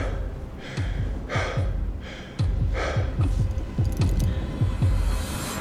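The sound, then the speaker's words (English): Heavy, labored breathing of a person struggling for air at high altitude on Kilimanjaro, many short, forceful gasps in a quick, uneven rhythm over repeated low thuds, with no talk. “I'm out of breath just standing up, so it's pretty serious.”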